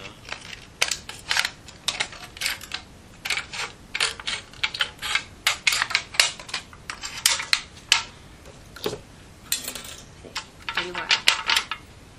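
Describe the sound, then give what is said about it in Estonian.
Scissors cutting material for a collar, with many quick, crisp snips and metallic clicks in irregular bursts, fairly faint throughout. “Nüüd ära väga pikka lõika. Ma võin ju lõpuni lõigata.”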